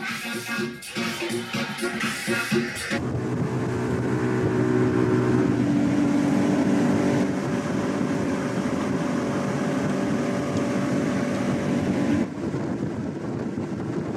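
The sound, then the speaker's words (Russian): A motorboat engine drones as the boat travels across water, a loud, steady, continuous roar that holds throughout with only slight shifts in level. “Плывут на катере.”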